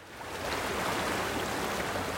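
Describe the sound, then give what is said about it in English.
Rushing floodwater of the Black Fork, a branch of the Mohican River in Ohio, under flood warnings: a dense, steady roar that swells in over the first half-second and then holds constant, without voices. “I'm standing on the banks of the Black Fork, a branch of the Mohican River that flows just between Columbus and Cleveland. Right now, there are flood warnings in effect and the water is really rushing.”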